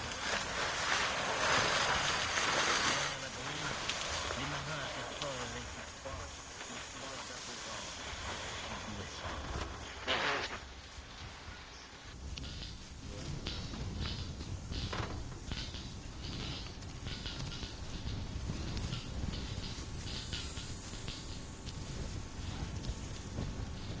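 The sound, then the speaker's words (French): Wind and churning water around a steamer ship rolling in heavy seas, a broad rushing hiss with surges, loudest at the start and swelling again partway through. “Soudain, un roulis formidable ébranle le navire. Le steamer, en sortant de la mer, se redresse.”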